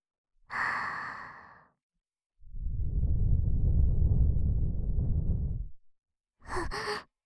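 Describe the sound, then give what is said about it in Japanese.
Gentle air is blown into an ear: a long, soft, low rushing puff lasting several seconds, with a shorter airy breath before it and a brief breath after. “耳ふうふうしますね。”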